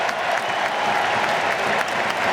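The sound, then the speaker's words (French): Stadium crowd giving an ovation as a player is substituted during a football match, a broad, steady roar of clapping from many hands that stays loud and even throughout. “Ah, belle ovation.”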